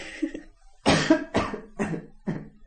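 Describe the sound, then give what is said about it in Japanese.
Coughing after choking on a drink: a faint short sound, then four loud, harsh coughs in an even rhythm about half a second apart. “人に聞いといて飲み物飲むってどういうことだよ。 あれ ほらむせた。”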